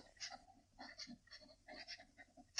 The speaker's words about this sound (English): Sign your name.